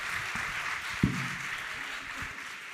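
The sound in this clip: A church audience applauds to welcome a speaker, a steady, even clapping patter that holds throughout with one low thump near the middle.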